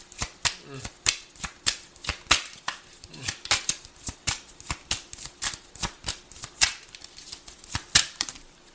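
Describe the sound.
Tarot cards are shuffled and drawn in many crisp, rhythmic snaps and flutters, repeating steadily at a moderate pace.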